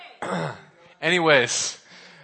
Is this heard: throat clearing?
yes